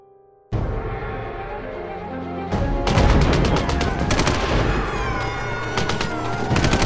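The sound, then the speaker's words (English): .50 caliber machine gun fire at a checkpoint: a loud sustained roar starts abruptly, then thickens into dense, rapid bursts of heavy gunfire that continue unbroken to the end. “Keep firing with the 50 cals! Don't let them get past the checkpoint!”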